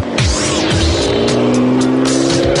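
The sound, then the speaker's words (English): A Ferrari 599 sports car roars loudly and steadily on an unrestricted stretch of Autobahn, its engine tones shifting throughout the short run. There is no talk. “The tool of the trade that we have to use today is a Ferrari 599, probably one of the finest machines you'll see on the Autobahn”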